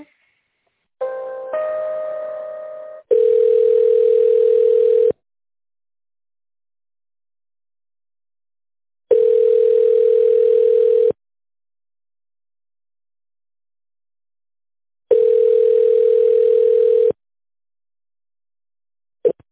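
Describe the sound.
Telephone ringback tone while a call is transferred to an accounting department: three steady, mid-pitched tones of about two seconds each, separated by long silences and preceded by a brief buzzy multi-tone sound.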